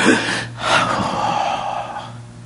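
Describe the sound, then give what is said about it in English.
A voice imitates a sharp, gasping breath in, with breathy bursts of air over a low steady hum. “When you think He breathed into Adam, He didn't go,”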